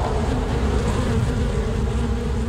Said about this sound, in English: We're getting here close-ups of particular flowers, and you start to hear the bees